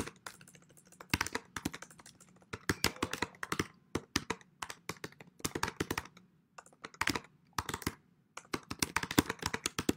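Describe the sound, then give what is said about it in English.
Typing on a computer keyboard: quiet bursts of rapid keystrokes separated by short pauses, the clicks irregular and fairly soft. “I can type it. I'll type it in an easier way in the chat.”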